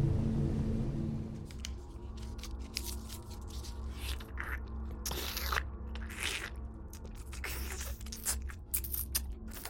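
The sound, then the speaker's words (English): Someone eats crunchy food: many faint, irregular crunches and chewing bites over a low steady rumble, with no talk. “Do you have to? Do I have to eat? Yes, I do.”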